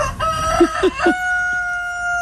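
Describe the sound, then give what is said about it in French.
A rooster crows loudly, with a few quick choppy notes that stretch into a long, drawn-out final tone. “Bah oui, c'est un coq.”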